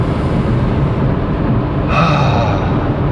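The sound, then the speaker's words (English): A big deep inhale, one long, loud breath drawn in steadily without a break, growing brighter and airier partway through. “when you're really stressed out and you just take that big inhale,”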